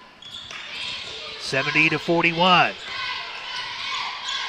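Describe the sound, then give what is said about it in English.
A basketball is dribbled on the court during a game. Repeated bounces sit under a commentator's voice and a steady wash of crowd noise. “across the timeline on the dribble left side”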